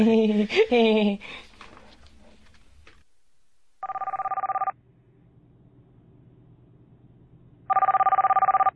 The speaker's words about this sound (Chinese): 熄机啦，都叫你熄机啦，睇戏冇电话响嘛。